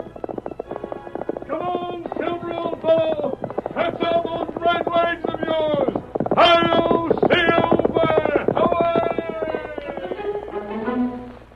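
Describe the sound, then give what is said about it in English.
Galloping hoofbeats of a great horse thundering down a trail, a rapid steady beat running loud for the whole stretch, layered with dense tonal sound. “as the hoofs of his great horse Silver thunder down the trail of adventure once more”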